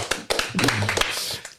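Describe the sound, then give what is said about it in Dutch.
Brief hand clapping from a small group applauding poems, a short run of uneven, separate claps that starts sharply and trails off toward the end. “Ik wil even een applaus voor deze mooie gedichten.”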